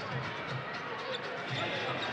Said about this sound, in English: Siakam's just pounding the dribble. Nothing's happening on this possession.